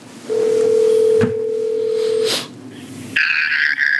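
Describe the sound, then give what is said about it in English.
A telephone call to a doctor's line ringing before reaching voicemail: one steady, low ring tone lasts about two seconds, with clicks in the middle and at its end, then a brighter tonal sound starts after a pause. “I had to call him to set up when and where. I got his voicemail. Here's his outgoing message.”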